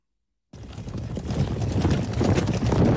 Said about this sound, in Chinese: 岑文本登上马车，走，直接去魏王府。